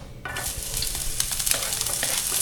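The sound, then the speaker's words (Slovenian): Chopped onion hits hot oil and frying starts, a broad steady sizzle that begins after a brief quiet moment and stays loud and crackling to the end. “Najprej bom v vroče olje dodal čebulo.”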